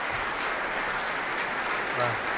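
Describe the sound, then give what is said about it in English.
Dense, sustained audience applause at a concert after the Dutch premiere of a violin concerto, a steady loud wash of many hands clapping without pause. “Ik wacht nog even tot het applaus helemaal weg is. En ook al zit hij al hier naast me. Ja, het publiek staat gewoon nog, hoor. Uitzinnig.”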